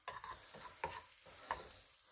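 Onions frying in a pan give off a faint, steady sizzle, with stirring scrapes and a couple of slightly louder clatters breaking through the hiss.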